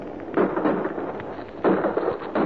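Gunshots from a handgun during a quarrel: a few sharp, loud bangs stand well apart, with lower noise carrying on between them and no talk.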